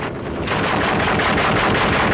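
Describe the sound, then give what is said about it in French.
Gunfire from Vietnamese forces hits a patrol at a forward outpost in the Indochina war, a dense, loud, continuous roar of crackling shots and blasts that runs unbroken through the whole stretch, with no voices. “Notre reporter, parti avec une patrouille, essuie le feu des Vietnamiens.”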